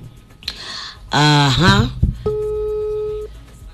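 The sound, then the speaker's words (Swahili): A telephone line rings while a call is placed to a doctor, a single steady electronic ring tone of about a second that follows a voice speaking. “Najaribu kumtafuta daktari na yeye tuweze kusema hapa kwenye laini ya simu.”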